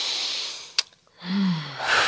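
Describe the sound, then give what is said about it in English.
A single deep breath taken during a guided relaxation exercise: a soft, airy rush lasting under a second, preceded by a brief sharp click. “So we shut off all our distractions, okay? Mm-hmm. And just take a deep breath.”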